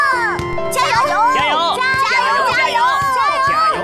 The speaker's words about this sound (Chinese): 你看这帮孩子，从早打到晚，像咱小时候吧。